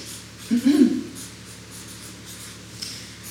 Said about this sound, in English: Noticing that my writing is not as neat when I'm doing it quickly.